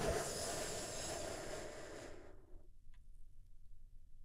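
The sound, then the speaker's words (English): A deep breath, taken slowly as part of a guided relaxation, forms one soft, steady hiss lasting about two seconds before dropping to near silence. No one talks. “we begin by taking a big, deep, healing breath all together. Here we go.”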